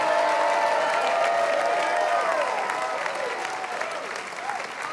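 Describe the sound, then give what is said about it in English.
A church audience clapping hard and shouting in worship. Loud, dense claps run throughout with raised voices over them, and the whole din eases off slightly toward the end. “clap your hands, all ye people, give God the greatest shout that you've ever given anybody.”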